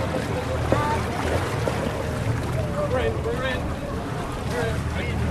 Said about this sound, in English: Finally, the ferry home to Ashford Castle has arrived. The wind is lifting and he's having trouble docking.